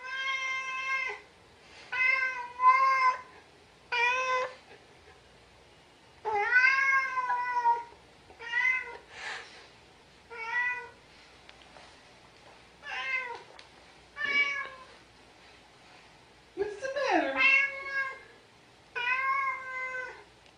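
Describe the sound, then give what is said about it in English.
A cat meows over and over in many drawn-out, harmonic cries separated by short pauses, some bending up and down in pitch, loud and with no talk. “They're asking Menzo the cat what's the matter, and of course you know what's the matter. Menzo wants to talk about animals right now”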